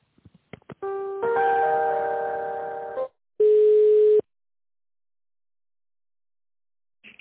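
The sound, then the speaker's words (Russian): A telephone line tone plays while an office call is being transferred. A few quick clicks lead into a long buzzing tone with several overtones. After a brief gap, a shorter steady tone follows, then silence ending in a small click. “Минуточку, сейчас соединю. Зовут Светлана Александровна. Соединяю.”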